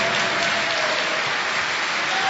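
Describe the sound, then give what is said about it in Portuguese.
Church audience applauding: a thick, even wash of clapping from many hands, loud and steady through the short stretch with no pauses. “desocupe as suas mãos e aplauda ao Senhor Jesus com alegria.”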